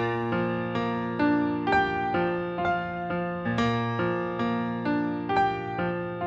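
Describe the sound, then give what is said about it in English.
A solo piano plays a minimal, memorable B-flat arpeggio motif with right-hand octaves. It runs as a steady stream of many evenly spaced, ringing notes at moderate volume, with no voices. “So that piano line sounds like this.”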